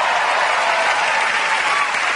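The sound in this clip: Audience applause, a dense, steady wash of many hands clapping that holds at an even level for the whole stretch, with no voices over it.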